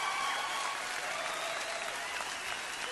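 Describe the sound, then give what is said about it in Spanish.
Sustained audience applause, dense steady clapping at an even, fairly loud level from start to finish, with faint crowd murmur and no clear talk. “Por favor, denle un aplauso a estos muchachos que han hecho un excelente trabajo.”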